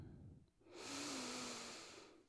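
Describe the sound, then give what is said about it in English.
A single deep breath, one long airy rush that swells and then gently eases off over about a second and a half, heard on its own with no talking. “Let's go ahead and take a really deep breath in.”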